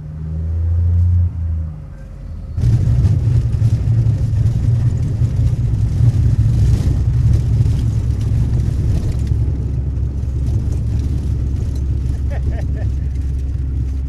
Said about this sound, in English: He dips his Cessna down and looks like he's going to land on a gravel bar, then pulls back up and circles. He dips a second time, and we hold our breath.